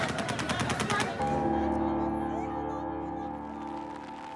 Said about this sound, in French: les soldats américains qui sécurisent les lieux effectuent des tirs de sommation